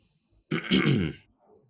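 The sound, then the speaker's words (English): A person clearing their throat: one rough, raspy, guttural rasp lasting under a second, fairly low and throaty, heard alone against near silence. “Got to clear the throat for that.”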